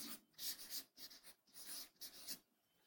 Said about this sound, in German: Ich schreib's mal an.